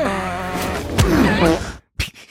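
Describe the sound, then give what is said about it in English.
A man being choked strains to breathe, letting out a long rasping, groaning struggle for air that cuts to brief silence before a short, sharp gasp. “That one's disturbing, because you can hear that he's trying to breathe while being choked.”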